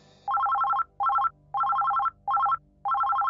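A phone ringtone signals an incoming call in a Spanish radio drama: five bursts of rapid, bright electronic trilling, each a quick repeating pattern of tones, separated by short gaps.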